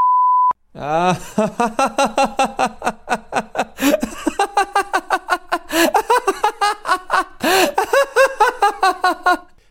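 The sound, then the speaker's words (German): A single steady electronic beep marks the start of a timed segment, brief and alone, followed by several people talking with laughter. “Die 3 Minuten beginnen nach dem Piep.”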